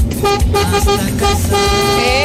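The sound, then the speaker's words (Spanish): Car horn honking: a loud, blaring, harmonic tone held almost without break for about two seconds, pulsing slightly as it sounds. “Eso, bocinazo de nuestro gran amigo”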